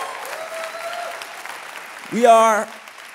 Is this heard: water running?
no